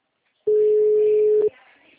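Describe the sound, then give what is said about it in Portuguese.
A telephone disconnect tone sounds after a dropped call: one steady, mid-pitched electronic beep lasting about a second, starting and stopping abruptly. “Nossa, ligação caiu. Não acredito.”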